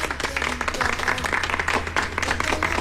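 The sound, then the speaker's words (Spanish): Studio audience applause in a Radio Disney studio, dense and steady clapping that continues evenly throughout. “Otra vez los aplausos.”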